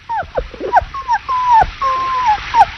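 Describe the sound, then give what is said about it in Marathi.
A soaked, trembling puppy whimpers outside, giving a series of high, thin whines and yelps. Some whines fall in pitch and one is drawn out longer, with short gaps between the cries. “काय आहे ग बाहेर? मावशी, कुत्र्याचं पिल्लू.”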